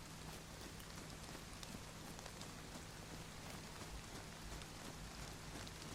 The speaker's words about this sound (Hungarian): megint elkezdett esni az eső.